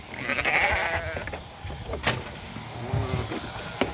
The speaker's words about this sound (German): Einmal im Jahr müssen die norwegischen Fjordschafe geschoren werden.